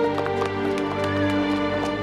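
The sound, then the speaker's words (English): A colt trotting easily over smooth rock: light, regular hoof clops in a quick rhythm, set under sustained melodic music. “The colt runs off, and Neera follows. He trots easily over smooth rock.”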